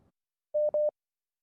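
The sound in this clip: Telephone line tones sound as a call reconnects: two short, steady mid-pitched beeps in quick succession, alone and otherwise silent.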